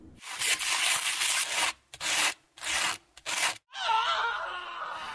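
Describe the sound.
Sandpaper rubs in four rasping, gritty strokes separated by short gaps, followed by a brief voiced sound.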